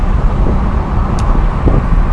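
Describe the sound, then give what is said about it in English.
Car cabin noise while driving at night in Scotland with the windows down: a loud, steady roar of wind and road rumble, constant throughout, with no voices. “Windows down, that's why it's a little bit noisy in here, in the cabin.”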